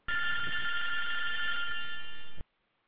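A telephone rings for an incoming call-in caller, one bright, sustained electronic ring that holds at a steady level for a little over two seconds and then cuts off abruptly into silence.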